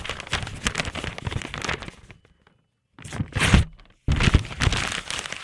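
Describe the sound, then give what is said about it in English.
An envelope is torn open at a mock awards announcement: bursts of dry, crackling paper crinkling and ripping, then a brief silent pause, then more sharp tearing and rustling. “The envelope, please.”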